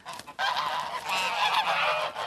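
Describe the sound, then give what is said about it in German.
Geese honking: a steady chorus of nasal honks from several birds after a brief quieter start, continuing without pause. “Anhängliche Gänse. Das Bedürfnis nach Bindung und das sich wohlfühlen mit einem Partner, das empfinden auch Gänse.”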